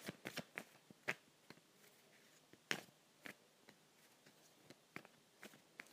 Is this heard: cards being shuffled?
yes

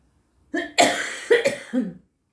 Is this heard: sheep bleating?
no

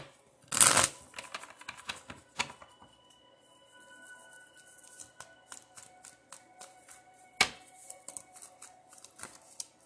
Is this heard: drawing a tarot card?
yes

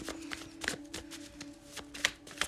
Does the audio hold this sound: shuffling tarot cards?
yes

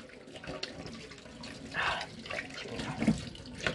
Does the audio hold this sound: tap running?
yes

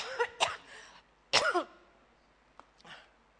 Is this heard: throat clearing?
yes

